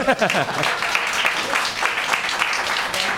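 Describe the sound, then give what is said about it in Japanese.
Applause from a group of people, a dense, continuous patter of clapping that stays fairly loud and even throughout the few seconds. “拍手”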